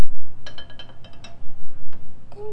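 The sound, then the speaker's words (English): A spoon stirring milk in a glass gives a series of light, irregular clinks and taps over a low steady hum, with a few scattered strikes near the end. “We're going to stir it. We're going to stir it up.”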